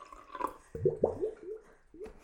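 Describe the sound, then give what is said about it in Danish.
Fish-shaped water jug gurgling as water is poured: a series of short, hollow glugs, each a low bubbly blip that quickly rises in pitch, coming in an uneven rhythm and heard alone. “min vandkande er en fisk, der gurgler, hvis det er noget, der interesserer folk. Som det kan høres. Det er vandkanden, der gør det.”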